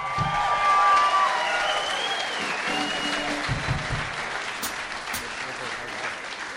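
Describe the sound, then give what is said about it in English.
Applause from an audience at a live stand-up comedy show after a set, a dense, steady wash of clapping that stays loud for the whole stretch and eases slightly toward the end. “Come on guys, one of the sets of the night. Make some noise for Jamal Abdul.”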